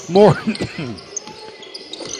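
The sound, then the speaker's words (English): A basketball is dribbled on the court during a game, giving a few sharp, hollow thuds at an uneven pace. A voice talks over the start. “Still with the dribble, the lefty senior.”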